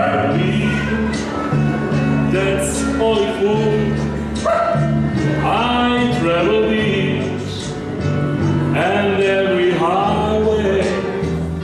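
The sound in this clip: Pet dogs yip, howl and whimper along with an opera singer's performance of a song at a charity event for abandoned animals. Rising, wavering canine cries sit over sustained sung and backing tones throughout.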